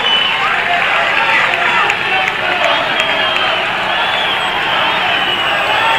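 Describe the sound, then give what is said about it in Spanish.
Football fans in a stadium create a dense, steady crowd roar with no distinct peaks, a continuous wash of many voices blended together. “¿Qué dicen los hinchas? fuera de ello hay un hincha que ingresaba justamente a este Claro, pero centrémonos lo que dice el público acá.”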